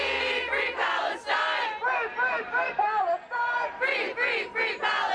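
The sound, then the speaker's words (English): A protest crowd at a university campus encampment in D.C. chants loudly, many voices shouting in a steady, rhythmic call-and-response cadence that carries through the whole stretch. “This is what it sounds like this morning at George Washington University encampment in D.C.”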